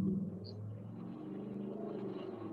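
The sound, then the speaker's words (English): Low engine rumble of a Ford Mustang driving past outside, a faint, steady growl that holds throughout without a sharp peak. “Someone's just driving their Mustang there.”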